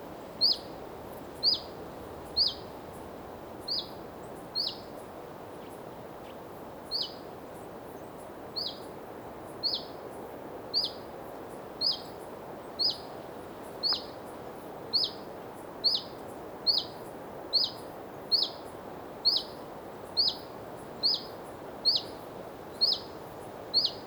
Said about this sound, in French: ce petit Puyo Veloz qui alarme près du nid. Alors que le vent balaye là aussi la forêt